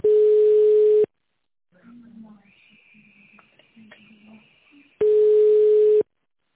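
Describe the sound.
A telephone ringback tone plays while a call is transferred to an office extension: two long, steady, loud beeps at the start and end, with quieter talk between them.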